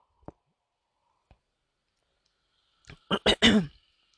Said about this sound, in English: Hold on, let me drink my coffee.